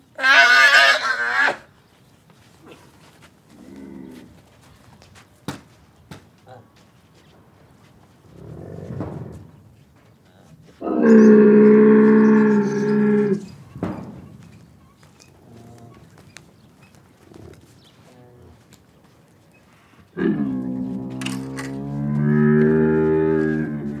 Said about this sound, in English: My favourite recording on the release is by Peter Cusack, who I've mentioned on the KNITSONIK podcast before, and it's the sound of a camel being milked.